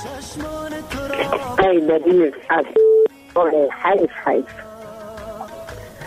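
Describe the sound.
A telephone call is connected, marked by one short, steady electronic tone that rises clearly between stretches of people talking.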